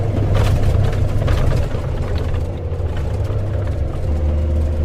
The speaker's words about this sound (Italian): Il nostro blindato Lince procede veloce su una strada decisamente dissestata, piena di buche e di sassi.